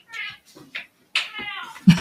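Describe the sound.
A cat meows in a studio, a few short, bright meows of uneven length with brief silences between them, ending with a low thump.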